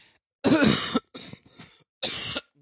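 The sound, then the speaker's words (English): Coughing into a microphone: a few harsh, loud bursts, with a long first cough and shorter rasping ones after it, then a strong final cough, with no talk. “didn't mean to cough in the mic”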